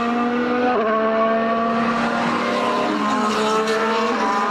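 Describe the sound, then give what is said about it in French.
Race cars with V10 and V8 engines at a racing circuit: a loud, continuous, high-pitched engine roar with shifting tones, one engine note dropping in pitch partway through. “On se sent au circuit Gilles Villeneuve. Là. C'est ça que je voulais. La magie de la radio, le théâtre de l'imaginaire. Je m'ennuie du son des V10, des V8.”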